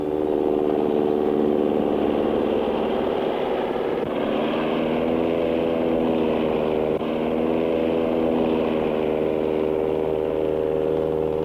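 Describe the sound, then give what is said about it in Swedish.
Swedish-built dive bomber aircraft take off group after group, their engines forming a loud, continuous droning roar with layered harmonic tones that waver slightly in pitch and hold steady in volume throughout, with no voices. “Det här är V-17, helt svenskbyggda störtbombplan som sagt. Lekmannen känner igen dem på deras långbyxor som de fäller upp när de väl kommit i luften. Grupp efter grupp startar och lyfter.”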